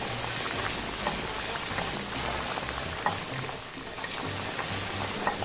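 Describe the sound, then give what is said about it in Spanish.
Breaded milanesa de migajón, dipped in egg batter and breadcrumbs, sizzles in hot oil, a steady dense frying hiss with scattered small crackles throughout. “Lo voy a poner a empanizarlo con el pan molido. Y ahora sí, ya le toca ir al aceite.”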